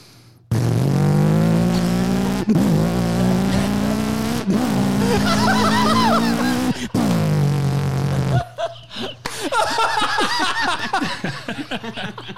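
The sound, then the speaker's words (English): A voice imitates a 1966 Chevelle hot rod engine revving. It holds loud, buzzing revs in several long sustained stretches, broken by brief pauses, and then breaks into laughter. “But I'll do my hot rod. My hot rod, you know, like 66 Chevelle or something. Be like, this is what I used to race knife in.”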